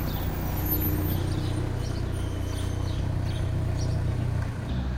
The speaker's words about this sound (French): Donc on l'entend, les automobilistes mettent un point d'honneur à venir vous saluer, à faire une petite marche arrière à côté de là où on est installé. Vous qui aimez tant le silence et la solitude, je vous laisse apprécier ce petit bruit parasite.